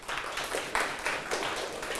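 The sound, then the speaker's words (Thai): Classroom students clapping for a classmate: a short burst of uneven claps that swells and dips in loudness. “ถูกต้องไหมครับปรบมือเพื่อนหน่อยครับ”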